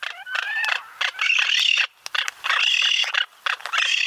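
Harsh, grating squawks and calls of Magnificent Frigatebirds come in a rapid series of raspy bursts with short gaps between them, fairly loud throughout.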